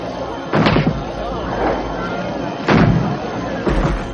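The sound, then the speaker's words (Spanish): Soldiers fire guns and a cannon while attacking a village in a jungle in colonial South America. Four heavy booms are spaced about a second apart over constant rumbling noise. “Otros soldados avanzan entre la vegetación y disparan sobre el poblado.”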